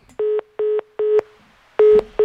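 Telephone keypad tones dial a call: five steady, clear beeps, three evenly spaced, then a short pause and two more, the last one cut short.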